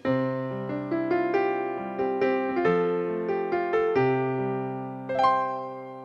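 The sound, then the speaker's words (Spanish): Piano playing a lively melody over lower chords, a steady run of many struck notes that ring and decay, loud and alone with no voices. “¡Un piano!”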